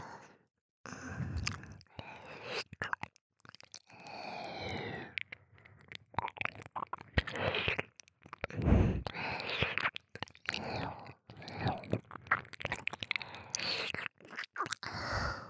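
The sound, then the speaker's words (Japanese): Wet ear licking, slick with saliva: irregular smacking, sticky clicks and slurps that come in uneven bursts and pauses, soft overall with sharper wet pops scattered throughout. “あなたの耳、もう唾液でねっとり濡れてる。これ以上舐め続けてたら、”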